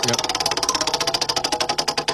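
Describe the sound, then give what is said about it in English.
A prize wheel spun on a game segment, giving rapid, steady ticking as its pointer clatters over the pegs, with many sharp clicks in an even rhythm throughout. “I'm going to give the wheel a spin one more time.”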